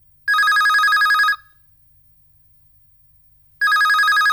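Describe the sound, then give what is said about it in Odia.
A telephone rings for an incoming call with a bright trilling electronic ring. One burst lasts about a second, silence follows for roughly two seconds, and a second identical burst begins, with no voices. “ଆଉ ଡେରି ନକରି ଆସନ୍ତୁ ନେଇଯିବା ଆଜିର ପ୍ରଥମ କଲ୍ଟିକୁ”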